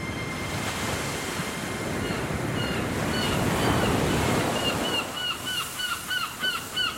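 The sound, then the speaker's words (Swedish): Waves break on a deserted beach in a steady, rushing roar, and toward the end a series of crow caws rises over the surf. “Du sitter på en ödslig strand och ser vågorna slå in.”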